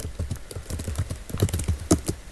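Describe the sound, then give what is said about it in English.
Typing on a keyboard to enter a search word in a phone app store: many quick, light key taps in an uneven run, heard alone without talk. “So I'm going to type one football or one word.”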